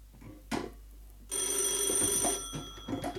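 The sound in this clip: A telephone bell rings after a request to call back. A couple of short thuds are followed by a continuous, bright, metallic ring that lasts about two seconds before tapering off.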